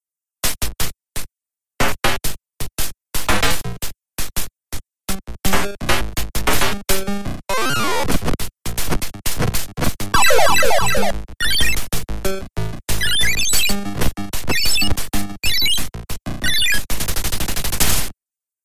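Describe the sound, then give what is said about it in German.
Atari 800 video game sound effects: a metallic clatter of trash can lids in a backyard, followed by squeaking mice in a cheese room; loud, choppy bursts of synthetic noise giving way to dense, rapid squeaky chirps. “Da hört man zuerst das metallische Klappern der Mülltonnendeckel in dem Hinterhof und danach dann das Quieken der Mäuse in dem Käsezimmer.”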